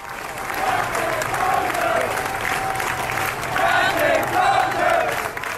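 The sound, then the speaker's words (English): Hundreds of sailors aboard a ship cheer, clap and chant loudly for their departing captain in a relatively contained space, a dense, sustained roar of voices and applause. “hundreds of the sailors who are left aboard meet in a relatively contained space, basically say, we're going to cheer this guy off. They're chanting, Captain Crozier.”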